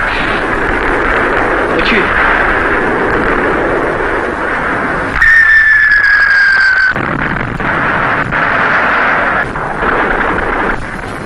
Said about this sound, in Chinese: 怎么会有这么多的大炮呢？